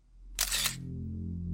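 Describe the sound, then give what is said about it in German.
Camera shutter as police photograph shoe prints and tyre tracks, a single quick, quiet click-whir over a steady low hum. “Die Polizei macht Fotos von den Schuhabdrücken und den Reifenspuren.”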